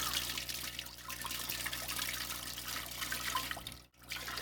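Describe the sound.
Water is poured in a steady, continuous splashing stream that breaks off briefly near the end and then resumes.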